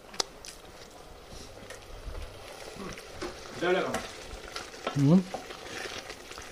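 Onions and peppers frying in a pan give a steady sizzle and crackle, with a few louder bursts of stirring and scraping toward the end. No one speaks.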